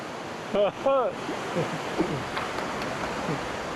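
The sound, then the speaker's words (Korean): Rushing water of a fierce mountain valley stream pours as a steady, dense roar throughout, with a short burst of voice near the start. “거센 계곡의 물소리를 들으며 무사히 볼일을 마쳤습니다.”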